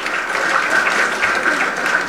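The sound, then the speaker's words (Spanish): Applause in a church during Mass, greeting children after their first communion; a dense, steady patter of clapping from many hands fills the whole stretch at even loudness, with no voices over it. “Y demos fuertes aplausos también a los niños que hoy celebraron su primera comunión.”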